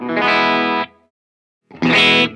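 Two loud, trebly bursts from a distorted Gibson Lzzy Hale Explorerbird electric guitar played on the bridge pickup, each a sustained, bright chord, separated by a short silence and followed by a quick fade.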